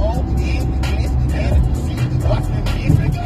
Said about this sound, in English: it's just me solo in the in the whip right now, I'm, I'm driving to the location